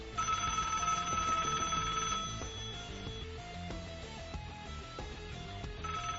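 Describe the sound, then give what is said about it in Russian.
A telephone ringing in a quiet house, with electronic ring tones that repeat at a steady, moderate level and no voices. “Телефонный звонок в полной тишине заставил меня подпрыгнуть.”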